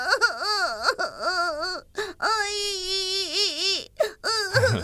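A boy cries over his hurt foot, letting out long, high, wavering wails and sobs broken by short catches of breath.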